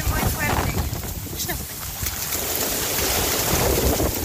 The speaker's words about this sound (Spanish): Vamos a escuchar ahí el audio ambiente. Viento horrible, muy fuerte. Oye, está muy fuerte, se ve ahí.